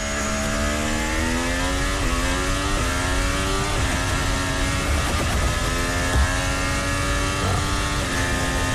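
A Formula 1 car at a Hungarian Grand Prix third practice session roars past, its loud high-revving engine rising in pitch and then stepping down at several quick upshifts. The engine note stays strong and steady throughout, with no voices over it.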